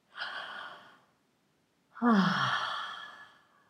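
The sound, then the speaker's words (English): A deep breath: a soft, drawn inhale, a short pause of silence, then a longer, louder, slightly voiced sighing exhale that fades out slowly. “And take a deep breath.”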